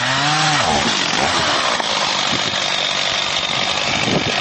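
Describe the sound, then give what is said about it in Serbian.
A chainsaw, switched on to cut an apricot tree, roars loudly and continuously with a steady, buzzing engine whine throughout. “Testera je džabe uključivana. Kajsija, kako smo se uverili, i dalje rađa”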